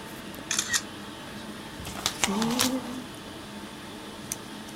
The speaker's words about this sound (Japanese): ちょっと写真撮ろうっと